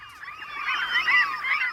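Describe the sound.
Gulls calling near nests built on house rooftops, a steady, overlapping stream of harsh, honking squawks in a mid-high register that keeps up without a break.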